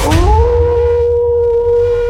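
A wolf howl sound effect swells into a single sustained tone that rises briefly and then holds steady and clear for about two seconds over a low rumble.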